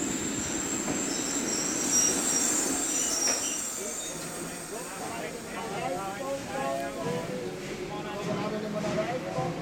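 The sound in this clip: A train pulls into a railway station with loud, continuous high-pitched wheel squeal throughout, steady in volume, with voices underneath.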